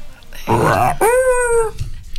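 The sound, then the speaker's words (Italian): Human voice imitating the call of a yellow-bellied toad: a rough, breathy burst, then a drawn-out, howl-like wavering tone that trails off. “Allora, adesso mi fate il verso del rospo ululone.”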